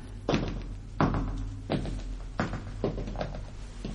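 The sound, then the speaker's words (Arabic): A large, heavy, castle-like door being pushed open, heard as several dull, heavy thumps at irregular intervals over a low steady rumble, with no voices. “تعالي نحاول نفتح الباب الكبير، الباب الكبير اللي قدامنا ده.”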